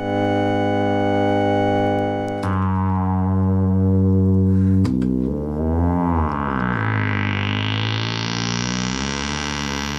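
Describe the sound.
Electronic chord of combined synthetic tones from an electronic music demonstration: steady, layered pitched tones that shift abruptly twice, then give way to a wavering, gliding blend with rising hiss, loud throughout and with no voices.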